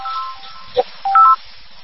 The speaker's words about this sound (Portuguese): Recebendo ligação aqui no telefone, é que sabe aquelas ligações assim, que insistem, todo mundo recebe, desculpa aí.